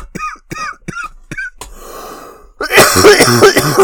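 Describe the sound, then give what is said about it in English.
Harsh, loud coughing follows a string of short, sharp breathy bursts and a brief hiss, ending in a rough, sustained fit of coughs. “you gotta supercut all my coughs together into one disgusting cough for the intro.”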